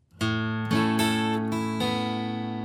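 An F-shape chord rings out on acoustic guitar, with the open fifth string struck, down-up strums across the fourth to first strings and upstrokes on the open first and second strings, giving several bright, ringing strums that sustain between strokes.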